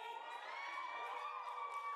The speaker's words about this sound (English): Crowd is riled up.